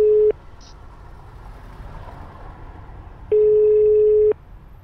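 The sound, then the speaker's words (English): Telephone ringback tone while placing a call: a steady mid-pitched electronic tone that cuts off just after the start, then returns for about a second after a pause filled with low hiss. “Let me call Jada. Right quick.”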